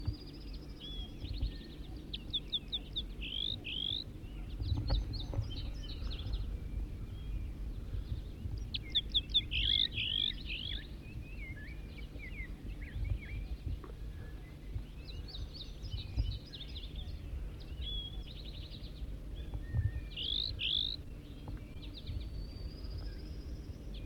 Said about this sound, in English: Start recording a wild bird again.